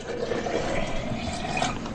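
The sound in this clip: Oil poured from a container into an empty pot, a continuous gurgling liquid stream that stays steady and moderately loud without a break.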